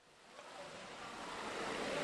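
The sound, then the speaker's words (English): Floodwater from the Chao Phraya River overflowing through a school in Bangkok makes a soft, continuous rushing wash that swells gradually in loudness. “I'm at a school on the banks of the Chao Phraya River in Bangkok City, just a few kilometres from the CBD. And as you can hear, the river here is overflowing through this school”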